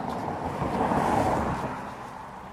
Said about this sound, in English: I'm just walking to the local post office. On quite a busy road, as you can probably hear.